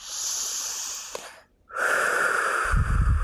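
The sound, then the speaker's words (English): A deep breath, heard as two long, noisy breathy rushes separated by a short silent pause, the second one louder and fuller, with no talking. “If you can't close your eyes, take a deep breath right now.”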